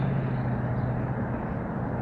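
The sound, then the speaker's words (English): Steady roar of road traffic near an overpass, a dense low rumble that stays constant throughout with no distinct passing vehicles standing out. “You may hear some machinery in the background, in addition to the traffic noises.”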